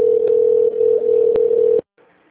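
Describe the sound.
A steady telephone line tone sounds while a call to a company's phone line connects. A single low, unbroken tone holds loudly for nearly two seconds, then cuts off abruptly, leaving faint noise.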